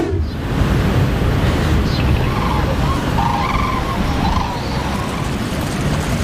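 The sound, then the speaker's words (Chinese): A boat engine starts on Poyang Lake at seven in the morning and settles into a steady, low rumbling drone with a broad noisy wash, holding level throughout with faint whining tones above. “早晨七点，静静的鄱阳湖面突然传来一阵机器发动的声音。”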